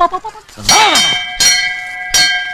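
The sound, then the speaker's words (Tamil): A bell is rung with three sharp metallic clangs, evenly spaced, each leaving a bright ringing tone that hangs until the next strike. “மணி அடிச்சிட்டு இருந்தியா நீ? எங்க ஒரு வாட்டி அடி பார்க்கலாம்.”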